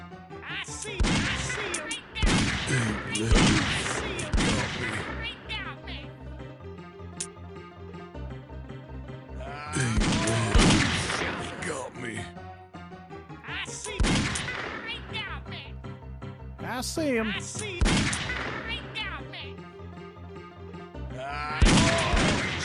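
Gunfire in a shooter video game during an ambush: repeated sharp bursts of shots over a steady, tonal game backdrop, coming in clusters with brief lulls between.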